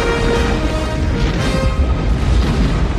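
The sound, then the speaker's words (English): Laser gun fire from an action movie: a dense, continuous barrage of loud booming, explosive blasts with heavy low rumble and crackling noise, and no voices. “Is this the laser gun in Contra 3?”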